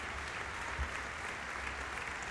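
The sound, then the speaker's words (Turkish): Concert hall applause for a violinist after Tchaikovsky's violin concerto with orchestra: a sustained, even wash of many hands clapping, fairly soft and steady, with no voices over it. “Şef Burak Tüzün yönetiminde orkestra eşliğinde Çaykovski'nin keman konçertosunu seslendirmişti. Şu anda alkışlar onun için.”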